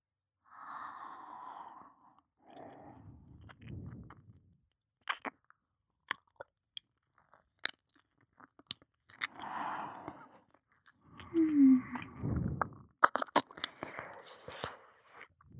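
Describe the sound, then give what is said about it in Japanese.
Ear licking mouth sounds: soft wet smacks, clicks and slurps come in intermittent bursts, quiet and close, mixed with gentle breaths between them. “耳を舐めてほしい？わかった。”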